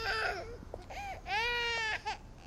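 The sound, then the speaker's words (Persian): A baby cries in a clinic, giving a few loud, tonal wails with strong harmonics, one drawn out in the middle, broken by short gaps. “داداش بچه داره همینطور گریه میکنه، صداش تو درمانگاه میومد.”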